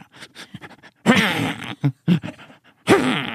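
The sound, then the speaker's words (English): A human voice imitating a twitchy dog's noisy breathing, with rasping, snorting bursts and growly voiced huffs in an irregular, stop-start rhythm. “This dog was like really twitchy. It would be like, it would like twitch all the time. And then it'd make this noise when it was breathing.”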